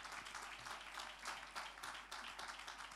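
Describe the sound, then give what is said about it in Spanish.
A church audience applauding during a worship service, steady dense clapping from many hands that holds at an even, fairly faint level for the whole stretch, without distinct voices rising above it. “Y la recibimos dándole un fuerte aplauso de alabanza al Señor.”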